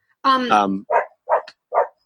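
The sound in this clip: A dog gives a longer, drawn-out vocal sound followed by three short, loud barks spaced evenly apart, with silence in between.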